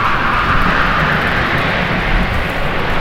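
An airplane flying overhead makes a steady, loud roar of jet-like rumble and hiss with no clear rise or fall, continuing alone without voices.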